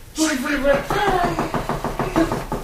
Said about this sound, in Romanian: Ce e asta? Bate cineva. Da, a bătut cineva la geam.